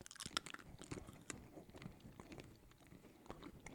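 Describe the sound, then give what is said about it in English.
Crunchy biting and chewing of spicy jelly beans, with many soft, irregular crunches and wet chews. The sounds are faint and close together, with a few sharper bites near the start. “First bite, they're pretty good. Just tastes like a jelly bean.”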